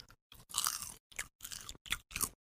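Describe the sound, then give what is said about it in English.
Someone chewing popcorn, with a string of crisp, crunchy bites separated by short silences. The crunching is faint and close, with no talk over it. “Well, I'm eating popcorn because I just finished watching a scary movie.”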